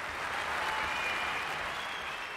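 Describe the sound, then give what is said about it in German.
Concert audience applause at a folk show, a steady, dense wash of many hands clapping at an even level for the whole stretch, with no voices rising above it. “Was für ein Applaus!”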